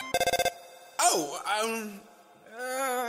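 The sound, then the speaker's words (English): Ringing of a phone in the video game Undertale: a rapid, bright trill of about six quick pulses lasting half a second, then a character's voice speaking. “I'm sorry, human, that was my phone ringing.”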